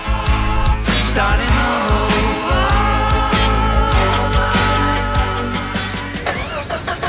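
A car engine struggles to start on a weak battery, cranking loudly with a continuous churning, rhythmic whir that never catches.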